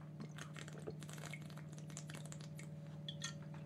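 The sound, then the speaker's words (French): Faint sips and small liquid sounds as someone drinks a little water, heard over a steady low hum. “Par contre, comme d'hab, je me nique la voix. Et donc je vais prendre un petit peu d'eau.”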